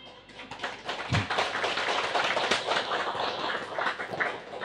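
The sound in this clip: Audience clapping fills a Vietnamese-language lecture hall during a business talk, a dense crackle of many hands that starts thin, jumps up after a moment and stays steady and lively, with no voices over it.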